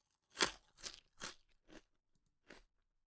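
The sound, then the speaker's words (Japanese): Crisp crunching as someone bites into a Japanese rice cracker (senbei): five dry, crackly crunches, the first loudest, irregularly spaced with a short pause before the last, heard alone. “こいつ、またせんべい食ってる。”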